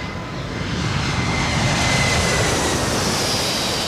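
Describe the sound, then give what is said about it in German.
Steady roar of a passenger airplane on a shuttle flight to New York: dense, continuous engine rumble with no breaks, fairly loud and unchanging throughout. “Ich nahm den Shuttleflug um 1 nach New York”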